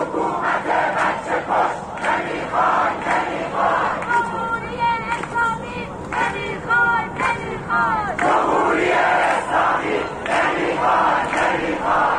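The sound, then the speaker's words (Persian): A crowd chanting slogans against the dictatorship in the streets of Ekbatan, accusing the government of killing children: loud massed voices in a steady, rhythmic chant that carries throughout. “مردمی که در گذرگاه ها علیه دیکتاتوری شعار می دهند و حکومت را به کشتار کودکان متهم می کنند.”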